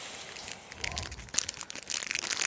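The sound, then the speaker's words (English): Crisp cellophane crinkling as a cigar's plastic wrapper is pulled off, a continuous papery rustle with sharp crackles that grows busier and louder toward the end, with no voices. “I just realized I have to get mine out of the cellophane.”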